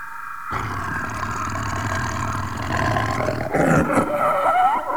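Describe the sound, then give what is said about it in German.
A leopard caught in a foot snare roars, a rough, sustained snarling roar that grows louder and harsher toward the end, with no talk. “Kein Elefant, es war ein Leopard. Er hatte sich in einer Fußangel verfangen.”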